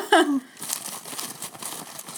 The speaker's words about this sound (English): It's on receipt tape. Yo, I'm recycling paper.